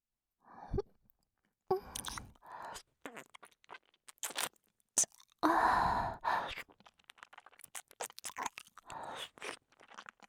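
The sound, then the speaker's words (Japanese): Close, wet ear-licking ASMR: sticky mouth clicks and slurps in irregular bursts separated by silent gaps, with soft breathy sighs among them. “ドロドロの頭の中に耳を舐めるいやらしい音が反響して気持ちいいね。”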